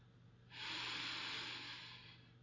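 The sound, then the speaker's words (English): One long, deep inhale during a guided breathing exercise: a soft airy hiss begins after a short quiet lead-in, holds for about two seconds, then eases slightly toward the end, with no talk. “And breathe out. Each breath taking us deeper into each other. Breathe in.”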